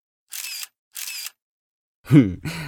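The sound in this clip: Camera shutter clicks as photos are taken of a posing subject: two evenly spaced, crisp clicks, each with a short whirr, then a voice begins speaking.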